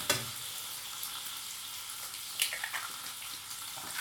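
Soft, steady sizzle of tomato halves roasting in a pan, a faint hissing texture with a short burst of stirring clatter partway through.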